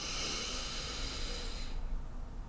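A single drawn-out inhale during a slow guided breathing exercise: a steady, breathy hiss lasting under two seconds before its airy brightness drops away.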